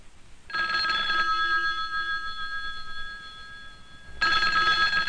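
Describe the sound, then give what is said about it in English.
A telephone rings with a bright, steady electronic tone. One ring lasts about two and a half seconds, then after a short pause a second ring begins, alone without voices. “That's the sound of a telephone ringing. Are you afraid to answer it?”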